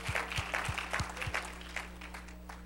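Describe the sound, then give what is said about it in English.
A church audience claps in praise after a call to give Jesus a hand. Crisp, rhythmic claps land on a steady beat with deep thumps early on, then soften into looser clapping toward the end. “And everyone shout amen. Amen. Let's give Jesus a great big hand clap of praise tonight.”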